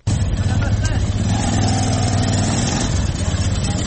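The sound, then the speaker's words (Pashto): Engine of a Zaranj motorcycle converted into a passenger rickshaw in Kandahar, running steadily with a continuous low, throbbing drone at a constant loud level throughout. “د زرنج موټر سایکلونو څخه رکشې جوړې کړي او سپرلي وړي راوړي”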